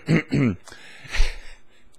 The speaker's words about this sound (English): get my throat clear.